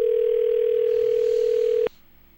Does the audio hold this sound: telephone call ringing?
yes